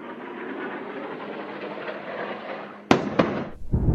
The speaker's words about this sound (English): That's the sound of Israeli bombing in Gaza overnight.